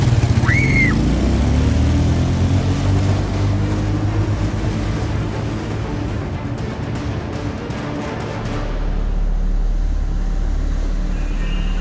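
A motorbike engine runs throughout, a low, rough, continuous drone that stays fairly even, with no voices.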